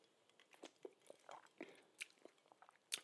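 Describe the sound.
Faint, irregular crunchy chewing and biting as a person tastes spicy food topped with something green, the bites coming in a quick uneven series.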